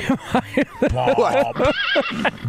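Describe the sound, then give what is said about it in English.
A person imitates horse neighing and whinnying with a run of wavering, voiced squeals and snorts, rising and falling in pitch across several short bursts. “I'll give you horse noises”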